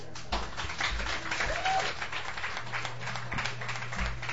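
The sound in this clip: Audience applause welcomes a performer onto a songwriter's stage show, a sustained, dense wash of clapping that stays fairly steady in loudness for several seconds.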